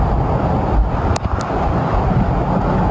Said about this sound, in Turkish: Georgia ve Alabama eyaletlerini İsaias kasırgası vurdu. Saatte 165 kilometre hıza ulaşan şiddetli rüzgar çatıları uçurduğu elektrik hatlarını söktü.